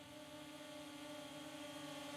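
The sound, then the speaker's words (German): A camera drone flying closer produces a steady, buzzing, high-pitched whine of layered motor tones over a continuous rushing hiss, with no voices. “Der Pilot fliegt mit der Drohne immer näher an Laura heran.”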